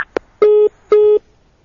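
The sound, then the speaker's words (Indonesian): A telephone busy tone sounds after a call disconnects: two steady beeps at one mid pitch, separated by a short gap and preceded by a couple of brief clicks. “sambungan teleponnya terputus”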